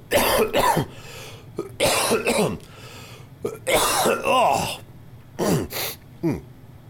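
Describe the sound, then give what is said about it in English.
Harsh coughing from one person: many rough bursts in uneven clusters, some run together like a hacking fit with throat clearing, loud against a quiet background. “Hold on, I'm gonna cough.”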